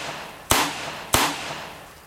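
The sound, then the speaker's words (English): Two sharp gunshots from a gun, each a loud sudden crack with a brief fading tail, about half a second apart, heard alone without voices. “He pulled his gun and fired 3 times.”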